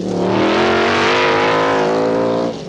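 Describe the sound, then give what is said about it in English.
Racing cars roar at the Mosport race track: a loud, steady, high engine whine with strong layered tones that holds throughout, then dips briefly at the very end. “If that really gets your adrenaline moving, if names like McLaren, Lola, Turbo Porsche, Shadow, Mirage, Chevron, and Renault Alpine Turbo really turn you on, turn your radio up. It's race time at Mosport,”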